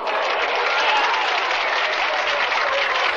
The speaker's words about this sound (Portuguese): É, eu queria aplausos.